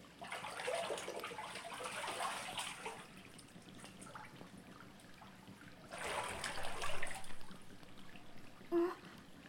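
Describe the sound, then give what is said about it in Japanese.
Water is poured over a body to rinse it during a bath, in two splashing spells with a softer trickle between them. “お体お流しします。”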